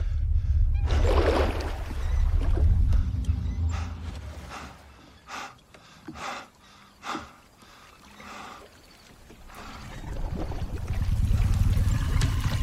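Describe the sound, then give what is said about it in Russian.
A small boat rocks on water, a low steady rumble with washing water, broken in the middle by a few short knocks and swells before the dense rumble returns louder at the end. No voices. “Лодку немного потряхивает.”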